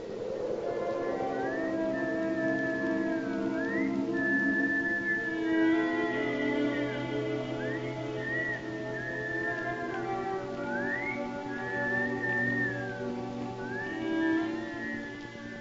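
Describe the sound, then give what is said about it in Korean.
Children whistle as they appear together: a few short rising whistled glides and sustained notes over a steady bed of layered musical tones. The level stays even throughout. “노마의 말이 끝나자 어린 시절의 아들딸들이 휘파람을 불며 모두 나타납니다.”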